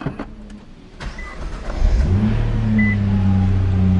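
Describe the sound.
A Nissan GT-R engine starting from push-button ignition: a brief starter whir, then the engine catches with a loud surge and settles into a steady, deep idle hum.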